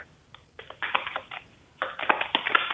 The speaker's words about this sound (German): So, dann Skatkarten hast du da. Ja. Einmal durchgemischt hast du wahrscheinlich auch schon. Und dann bitte erstmal drei Karten. Durchgemischt habe ich noch nicht, das kann ich aber ganz kurz machen.